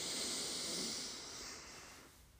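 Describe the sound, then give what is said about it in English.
Deep breath in during a guided breathing exercise, a long airy hiss that starts strong and gradually fades over about two seconds. “Oh, taking a deep breath in together before we say goodbye.”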